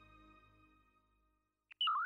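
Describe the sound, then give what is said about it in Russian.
An incoming email notification sounds as a brief electronic chirp: a tiny click followed by a short, bright sliding chime, coming right after a faint sustained tone fades to silence. “Звук входящего сообщения на почту.”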